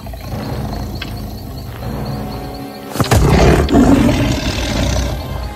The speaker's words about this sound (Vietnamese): bà lão nghe thấy tiếng hổ gầm